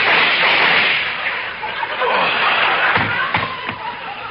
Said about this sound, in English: He shot so many bullets at you.